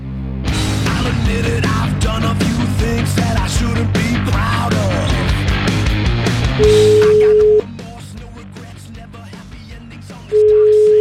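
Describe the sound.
An outgoing phone call rings back with a steady mid-pitched tone that sounds twice, each about a second long, after a stretch of loud music that continues quietly beneath the tones.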